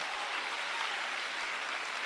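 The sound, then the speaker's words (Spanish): Congregation applause in a church service, a dense, even wash of many hands clapping at once, steady and unbroken from start to finish. “Un aplauso a ese mismo Jesús.”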